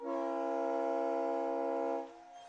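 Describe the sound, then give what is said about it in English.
Train horn sounding at a ballpark during a baseball game: one loud, steady, chord-like blast holding for about two seconds before cutting off, leaving quieter background noise. “The train horn goes off”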